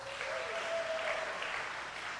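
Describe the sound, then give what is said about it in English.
Applause from an audience at an official ceremony as a state governor is introduced. The clapping is faint but steady and continuous throughout, a soft even patter with no pauses. “I knew you couldn't hold your applause on that one.”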